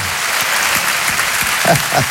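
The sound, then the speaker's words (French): An audience gives an ovation, with loud, dense applause from many hands clapping at once. The clapping holds a steady, even level for the whole stretch, with no voices standing out. “C'est déjà un exploit, ça mérite une ovation.”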